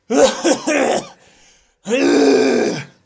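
Someone clears their throat in two loud, rough bursts: a choppy run of short rasps, a brief pause, then one longer, sustained guttural clearing.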